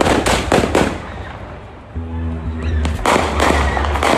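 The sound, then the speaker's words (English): Gunshots in the parking lot of an auto service shop. A rapid run of sharp cracks comes first, then a brief pause with a voice, then more shots in quick succession. “Moments later, shots ring out.”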